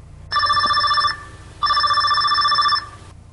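A telephone rings with an incoming call in two loud, bright electronic bursts, the second longer than the first, with a short pause between them. It is heard alone, with no voices.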